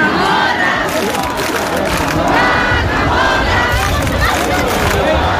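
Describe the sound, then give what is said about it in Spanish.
A large crowd shouting and cheering at the centuries-old Cascamorras town festival in Baza, Spain, a dense, loud and continuous roar of many voices with no pauses. “17.000 personas participaron ayer tarde en la tradicional y centenaria fiesta del Cascamorras en Baza.”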